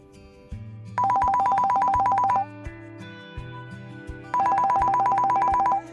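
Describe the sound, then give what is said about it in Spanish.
A mobile phone ringtone sounds in two loud bursts of a rapid, high-pitched electronic trill, with low sustained tones underneath throughout. “En eso suena su celular y es su jefe.”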